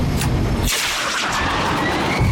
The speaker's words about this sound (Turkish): Vakit yok. Bombayı bırakıyorum.